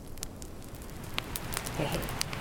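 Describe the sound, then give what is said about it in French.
Rain and a campfire burning just in front of a tipi: a soft, steady hiss of rainfall with scattered sharp crackles and pops from the fire throughout. “Comme avec Guillaume l'autre fois, il y a de la pluie et il y a le feu juste devant nous.”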